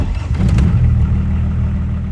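Engine of a 1988 Volvo 760 converted to an A-tractor starting up, with a short cranking burst that settles into a steady, low, rumbling idle.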